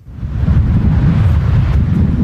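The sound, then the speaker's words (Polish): Strong gale-force wind from Storm Otto by the sea in Poland buffets the microphone with a continuous deep, rumbling roar, with no voices. “No wieje bardzo.”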